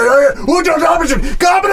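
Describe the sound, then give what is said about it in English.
A voice imitates dwarven screaming coming from a blacksmith's place: strained, wavering cries with sliding pitch that run on without pause for nearly two seconds, fairly loud. “like dwarven screaming, just like, and you see one dwarf waddle out”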